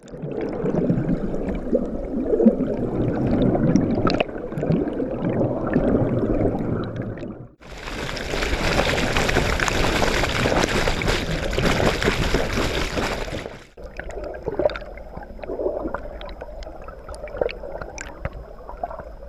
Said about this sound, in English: Those were underwater recordings made by a kayaker on the Appomattox River in Petersburg, Virginia, this past April 18th, in order to give us some idea of what fish might hear or experience